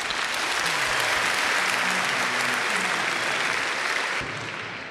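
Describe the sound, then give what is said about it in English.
An audience claps for itself with loud, dense, continuous applause that holds steady and then drops away sharply near the end. “Clap for yourself.”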